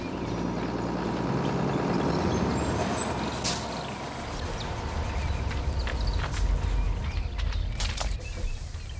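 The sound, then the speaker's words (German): A shuttle bus pulls in at a bus stop: a loud, steady low engine rumble with a few brief hissing bursts, like air brakes, heard alone. “suchten die vier die nächste Bushaltestelle auf und warteten auf den Shuttlebus, der laut Plan gleich kommen sollte. Und tatsächlich fuhr er kurz darauf ein.”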